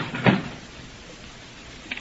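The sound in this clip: A door is shut and locked: one solid thud, then a couple of small clicks near the end over faint background noise.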